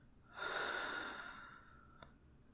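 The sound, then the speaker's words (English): A slow, deep breath taken during a guided relaxation exercise, heard alone as one long, soft, airy rush that swells quickly and then gradually fades away. “one last breath, in, out.”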